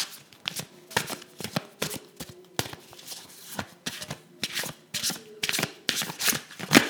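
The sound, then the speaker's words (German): A deck of cards from a Karin Drawings card set being shuffled: many quick, crisp riffling bursts in an uneven rhythm, fairly faint and with no talk. “Und ich habe wieder das Kartenset von Karin Drawings hier für euch. Und ja, werde jetzt mal mischen und dann eine Karte ziehen.”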